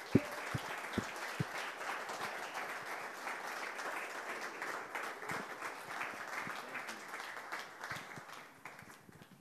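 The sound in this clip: Applause from a standing church audience welcoming a missionary pastor as guest speaker: dense, sustained clapping with a few sharper claps early on, holding steady and then fading toward the end.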